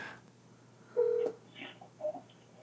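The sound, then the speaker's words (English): Telephone keypad tones as a call is dialed back, a few short, faint beeping tones with quiet pauses between them. “I'm gonna call you back. You better answer. I'm calling you back.”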